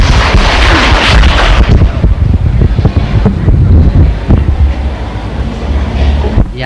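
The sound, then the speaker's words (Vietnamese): Audience applause at a gathering as a songwriter is introduced to sing his own song: loud, dense, steady clapping that fills the whole stretch with no talk over it. “Đề nghị quý vị cho một tràng vào tay.”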